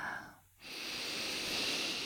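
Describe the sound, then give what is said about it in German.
A deep inhalation during a guided breathing exercise, a steady, airy hiss that begins after a brief quiet gap and holds evenly for well over a second. “Atme einmal tief ein”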